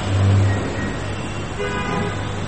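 A bus passing by, with a steady broad engine and road rumble that swells and then eases off, and a brief low horn-like tone near the start. No voices.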